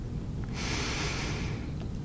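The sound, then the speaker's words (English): A single inhalation through the nose during a box breathing exercise comes as a soft, airy hiss lasting about a second, heard alone with no talk. “Close your eyes. Breathe in the nose for 3 seconds.”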